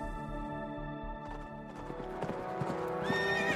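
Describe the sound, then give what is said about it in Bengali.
Horses gallop with hooves clip-clopping in a steady, driving rhythm, and a horse neighs loudly toward the end over the continuing hoofbeats. “14ই October, 3 দিন হয়ে গেল ঘোড়া ছোটাচ্ছি আমরা।”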